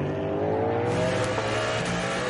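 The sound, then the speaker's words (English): A Ferrari race car passes during a circuit race. Its engine gives a loud, continuous, high-revving whine with dense layered harmonics that hold steady throughout, with no voices. “Giovinazzi and the Ferrari's gone through.”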